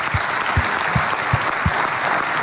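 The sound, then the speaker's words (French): Studio audience on a morning radio show applauding a guest, dense steady clapping with five low thumps beating at a regular pace underneath. “Applaudissements pour Christophe.”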